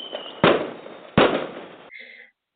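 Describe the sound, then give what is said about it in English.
A fireworks sound effect played back: two sudden loud bangs, each trailing off into a fading crackle, followed by a short quieter tail before it cuts to silence. “I play fireworks. Hello. I'm sorry. That's me, girl. That was fireworks.”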